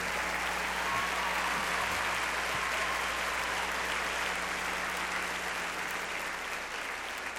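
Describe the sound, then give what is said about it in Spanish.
An audience at a concert gives a steady round of applause for a married couple. The clapping holds at an even level for the whole stretch, with no voices rising above it. “Échenle un aplauso a los esposos.”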